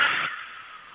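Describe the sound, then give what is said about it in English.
A deep breath out through the mouth, an airy hiss that is loudest at the start and eases into a softer, steady exhale. “So let's take a few deep breaths into your nose and out through your mouth.”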